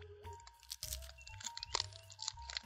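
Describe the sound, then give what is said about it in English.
Crunching and chewing of triple-layered, saltine-like crackers with a pink filling: many crisp bites and crackly chews in an uneven run, fairly faint, with no talk. “All right, so these look like saltines with really weird pink goo in them, and we're going to give them a shot. They totally look like saltines. Yeah. Triple layer, by the way.”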